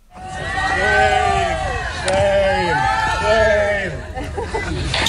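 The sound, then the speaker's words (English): Disgruntled hikers queuing for a photo at the summit of Mount Snowdon shout together in a loud, rhythmic crowd chant, with many voices rising and falling in repeated calls. “Shame, I think they're saying. And that is the sound of disgruntled hikers waiting for a photo at the peak of Mount Snowdon, Yrwyddfa, when 34-year-old Rick Thiedman decided to skip the queue.”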